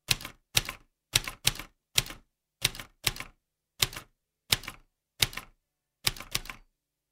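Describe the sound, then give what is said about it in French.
Clacking keystrokes on an early Ravizza typewriter from 1876 with lever transmission, about a dozen sharp strikes in an uneven rhythm, some in quick pairs, separated by short silences. “Voilà donc le principe de la machine à écrire, tel que Ravizza l'a inventé.”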